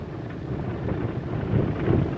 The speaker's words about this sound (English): vibration and background noise you hear is this rough gravel road.